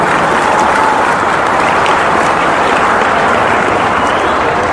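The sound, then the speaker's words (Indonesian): Loud, dense applause from a crowd at a political campaign gathering, a continuous wash of clapping that holds steady without pause. “Ya tepuk tangan enggak apa-apa.”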